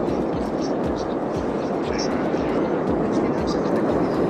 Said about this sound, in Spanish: Dicen los vecinos de La Palma que el ruido que mejor describe la erupción del volcán se parece al motor de un avión que sigue en marcha